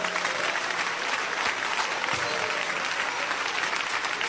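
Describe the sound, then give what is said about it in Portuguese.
A church audience claps their hands in praise during a worship service, producing dense, continuous applause that stays even in loudness throughout. “Podem louvar a Deus com as palmas.”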